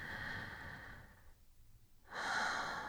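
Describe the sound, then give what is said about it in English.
Soft, airy human breaths after stretching: two breath sounds split by a short quiet pause, the second brighter than the first. “Like right now, I feel like I'm taking very short breaths.”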